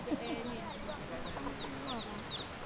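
A broody hen clucks softly among her chicks, a faint, continuous mix of low clucking and many thin, high peeps scattered throughout.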